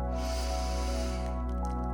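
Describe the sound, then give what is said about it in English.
A deep inhale drawn in through the nose, a soft airy hiss lasting just over a second, over a steady low humming drone that continues throughout. “let's start by taking a deep inhale in through your nose”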